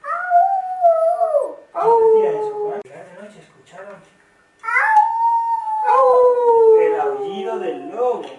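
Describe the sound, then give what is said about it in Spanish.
A wolf howls at night: several long, loud, drawn-out howls, each starting high and slowly sagging in pitch, with short gaps between them and one quieter, wavering howl in the middle. “Al llegar de noche escucharon el aullido del lobo.”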